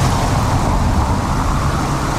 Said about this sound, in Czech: Přes Parmův most projíždějí auta ještě po dlažebních kostkách.